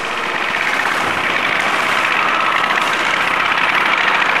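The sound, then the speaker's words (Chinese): A small motorbike engine runs steadily as the rider arrives at a market, a loud, continuous rumble with even noise throughout and no clear changes in revving. “骑着他心爱的小摩托，我们的主人公玉儿饼抵达市场。”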